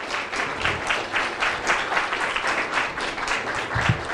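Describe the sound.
Audience applause after a lecture: a sustained, even wash of many hands clapping that holds steady throughout without voices.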